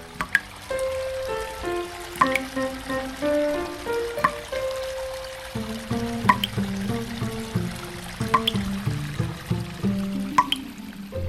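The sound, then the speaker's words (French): Water dripping and pouring in a children's water-themed radio production, with sharp drip clicks scattered over ringing, stepped tones like a vessel filling, steady and moderately loud with no talk. “Puis, bien sûr, ils ont écouté, dans le grand studio, leur création radiophonique. Le thème de cette petite production sonore? L'eau.”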